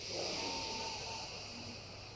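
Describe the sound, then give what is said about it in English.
Deep inhale during a guided breathing exercise, one long, airy, hissing draw of breath that sustains for about two seconds and eases off slightly toward the end. “Deep inhale.”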